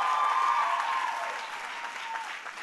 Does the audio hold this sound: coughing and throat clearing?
no